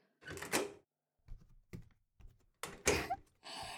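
A hotel room door being opened: a few dull clunks and sharp clicks, the loudest near the start and again toward the end, separated by brief silences.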